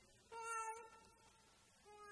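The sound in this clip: Cats meow from a party bathroom decoration themed as Umbridge's office, with two faint, tonal meows, the first longer and clearer, the second short and cut off at the end.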